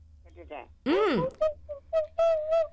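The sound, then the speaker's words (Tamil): Whistle sound played as a guessing-game clue: a swooping tone that rises and falls, then several short, steady whistled tones at one pitch, with brief voice-like sounds at the start. “அது whistle சத்தம்.”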